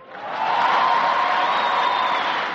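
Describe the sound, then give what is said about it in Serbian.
Applause from a packed amphitheatre audience at Cairo University interrupting Barack Obama's speech; a dense, steady wash of clapping that swells in over the first half second and holds evenly to the end. “Ovo je samo jedan od aplauza kojim je američki predsjednik Barack Obama bio prekidan u svom govoru u prepunom amfiteatru Kairskog univerziteta.”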